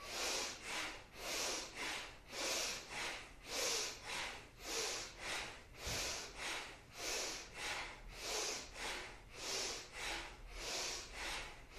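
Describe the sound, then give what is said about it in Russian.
Rapid, forceful bellows breathing in a bhastrika yoga exercise, hands on the ribs to lift the chest: many even, quick breaths in a steady pumping rhythm, fairly faint and with no talk. “Руками грудную клетку поднимаем. Поехали. Активнее вдох.”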